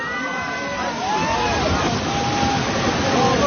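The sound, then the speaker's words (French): An entire mountainside collapsing in a landslide in Nepal: a loud, continuous roaring rumble with rushing, sloshing debris and water, while people's voices carry over the din. “Ce que vous entendez là, c'est le bruit là d'un flanc de montagne entier qui s'effondre.”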